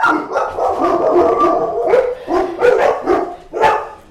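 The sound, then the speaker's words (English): Dogs bark and howl in a loud, overlapping chorus of drawn-out howls and yelping barks, with sharper barks punching through toward the end. “All right, who knows what that was? Clearly the dogs can't hold it together for more than one episode at a time.”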